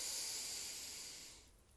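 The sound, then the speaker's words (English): A deep breath drawn in through the nose during a guided spiritual exercise, a steady, airy hiss that holds and then tapers away near the end. “We're all going to take a nice big breath in through the nose.”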